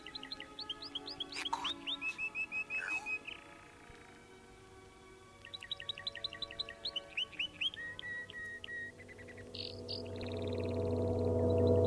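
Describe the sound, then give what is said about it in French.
Birds sing in quick, high, repeated chirps and trills. The chirping comes in two long, busy bursts with a short lull between them. A low rumble builds steadily toward the end. “Écoute le chant des oiseaux.”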